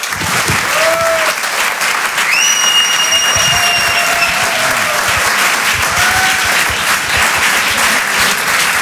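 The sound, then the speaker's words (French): Applause and cheering from a live comedy club audience at a Paris theatre: dense, sustained clapping at a steady high level, with a few whistles rising above it. “Faites du bruit, s'il vous plaît, pour Jean-Benoît Diallo.”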